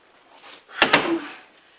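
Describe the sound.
A door is opened with two sharp clunks close together, followed by a short noisy tail that fades out, fairly quiet overall.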